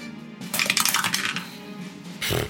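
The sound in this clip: Dice clattering across a table during a tabletop role-playing game, a busy rattling burst of small hard knocks followed by a shorter clatter near the end.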